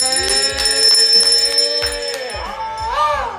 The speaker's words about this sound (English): I'm going to ring this bell because we are at the end of the show.